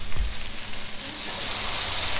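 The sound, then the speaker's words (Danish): Two homemade organic beef patties sizzle in a frying pan in a home kitchen, giving a steady, fairly loud hissing crackle that continues throughout with no talk. “Jeg står her og steger to hakkebøffer, som jeg lige har lavet.”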